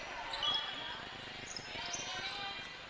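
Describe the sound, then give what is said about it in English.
A basketball is dribbled on the court during a women's game between the Lady Dogs and Mountain Home. The bounces are faint and repeated, under a low murmur of background noise. “The Lady Dogs with the basketball.”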